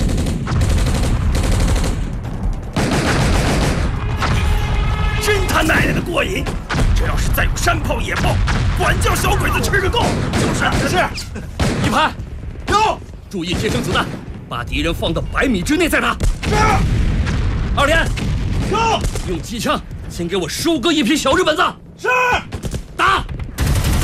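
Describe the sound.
Mortars fire and shells explode in a wartime battle scene. Heavy booms and rattling gunfire run almost without a break, and men shout over the din.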